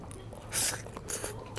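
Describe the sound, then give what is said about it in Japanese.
Biting and chewing on a bite cut from a bakudan-yaki, a giant takoyaki: a few soft, moist crunching bursts in short succession, moderately loud, with no talking. “この爆弾焼きの一部をちょっと切り取って口の中に入れたんですけど、 それでも口の中が全部たこ焼きになりました。”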